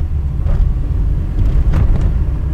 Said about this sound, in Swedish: Vi kör iväg i karavan över knöliga lervägar.